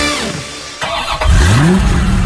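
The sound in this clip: A car engine running and revving, with a loud mechanical roar whose pitch climbs steadily in the second half as the engine accelerates.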